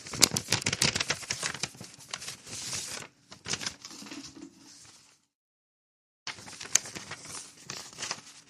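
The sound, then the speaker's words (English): A paper package of wellness gummies is opened and handled, with bursts of crinkling, rustling and tearing. The sound stops for about a second of silence, then the rapid paper crackle starts again. “This is a package from Mousy Bear Wellness Gummies.”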